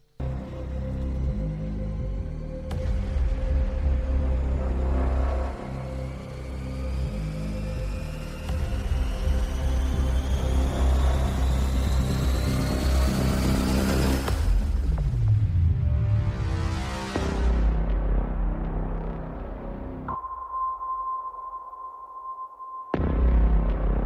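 Loud, dense trailer music with sustained droning tones, rising sweeping layers and a swelling whoosh, then a thin steady tone over a dropped-out bed before a final loud return.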